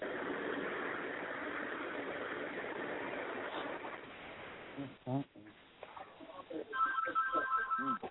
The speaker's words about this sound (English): Somebody got a phone in the background, man.